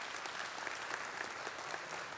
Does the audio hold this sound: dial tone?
no